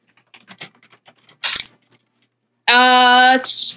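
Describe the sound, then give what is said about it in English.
Dice are rolled: a string of light ticking clicks, then a short, loud clattering burst, and after a pause a loud, sustained voiced cry. “Okay, he's rolling the dice. Here we go.”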